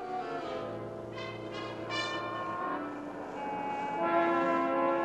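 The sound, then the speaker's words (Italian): A steam train pulls away amid puffs of black smoke as its brake releases, with loud, sustained, layered whistle or horn tones that shift in pitch over a steady rumble of the moving train. “Tra sbuffi di fumo nero s'allenta la morsa del freno e fila via il nostro treno fra grida di ferrovieri.”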